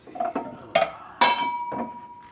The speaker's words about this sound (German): Im Geschirrschrank sucht er seine schönsten Gläser.